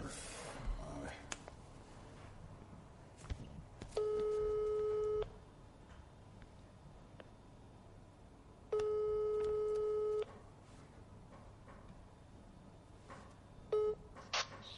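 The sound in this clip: Ringback tone on a telephone line while waiting for a call to be answered: two long, steady electronic tones, each lasting over a second and separated by a long gap, then a brief start of a third. Faint voices briefly appear early on.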